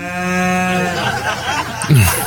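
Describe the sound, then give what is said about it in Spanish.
A cow interrupts a wedding with a single long, steady, low moo. Voices follow briefly afterward. “No, ¿una vaca? Una vaca interrumpió la boda, pero justo en el momento.”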